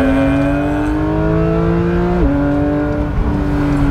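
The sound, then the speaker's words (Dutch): A Porsche naturally aspirated 4-litre engine revving hard, a loud, dense mechanical tone climbing steadily in pitch, dropping sharply once, then climbing again, with no voices. “dat doet Porsche toch gewoon echt heel erg goed. Hè? Atmosferisch blok, 4 liter groot.”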